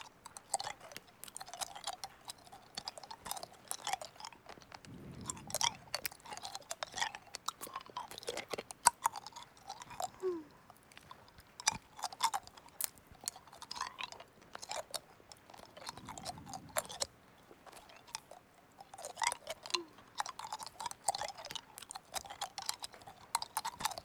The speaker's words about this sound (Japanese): 梅はこれにしよっと。いただきまーす。